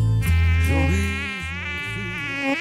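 A mosquito buzzing near the ear: a thin, nagging whine with wavering pitch that dips and swells as it drones on, loud at first and then a little fainter, with no talk.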